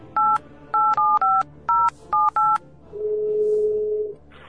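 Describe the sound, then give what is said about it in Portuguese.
A telephone number is dialed as seven short touch-tone beeps in an uneven rhythm, followed by a longer, steady, lower tone, with no voices. “Liga pro telefone dele então aí”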